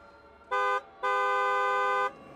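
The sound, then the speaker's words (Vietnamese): Loud truck horn blaring in two blasts, a short one followed by a longer sustained one, both a bright, buzzy, steady tone over a quiet background. “Có tiếng kèn xe tải rất lớn đang lao tới.”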